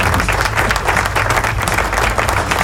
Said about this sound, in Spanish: vamos a darle un aplauso a todos los que están por ahí